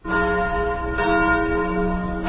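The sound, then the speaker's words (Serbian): Church bells of a Belgrade church ring out during a religious ceremony marking the arrival of holy relics. Rich, sustained overlapping tones hum continuously, with fresh strikes layered in about midway and again near the end. “Crkvena zvona označila su trenutak kada je episkop Toplički Arsenije uneo mošti despota Stefana Lazarevića u Vaznesensku crkvu.”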